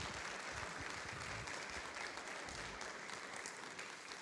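Steady applause from a church audience during a service reopening a worship space: a dense, continuous patter of many hands clapping at an even level throughout, fairly quiet, with no talk over it.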